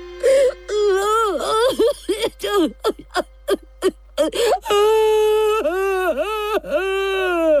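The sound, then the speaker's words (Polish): Loud, wailing sobs of a crying dragon, performed by a human voice: a run of short, broken whimpers with dipping pitch, then several long, drawn-out moaning wails that swoop down and up again. “Na te słowa smok zaczął okropnie płakać, a z jego wyłupiastych oczu potoczyły się łzy grube jak groch.”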